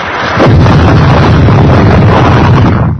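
A ship crashing into a hidden rock at sea with an explosion, heard as a sudden, very loud booming impact that swells into a sustained, heavy, wind-like roar.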